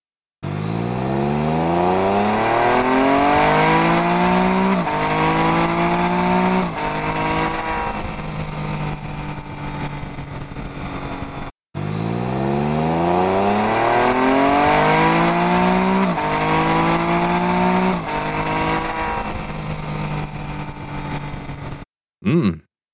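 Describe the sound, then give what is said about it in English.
A car engine revving hard during a drifting run, its roar climbing in pitch through several rising sweeps, loud and continuous. The same run then repeats after a brief break. “That was from today's ride with using the drift camera. And that was a car uh, just turned.”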